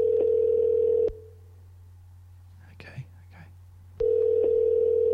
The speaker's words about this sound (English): it's dialing